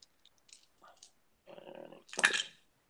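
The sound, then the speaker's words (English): A dog barks once, a loud sharp burst near the end, after a few faint, scattered softer noises. “This dog decides to bark now.”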